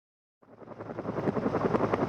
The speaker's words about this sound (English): a helicopter is lifting a 73-year-old tractor out of the Alaska mud